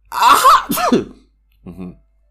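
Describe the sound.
A person sneezes with a breathy, drawn-out lead-in and a sharp loud burst, followed by a short, fainter vocal sound after a pause.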